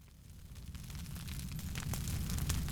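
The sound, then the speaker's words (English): A fire crackles in an audio drama: a faint, hissing wash of noise with scattered small crackles that grows slightly louder throughout. “Welcome, friend. Have a seat by the fire. Make yourself comfortable.”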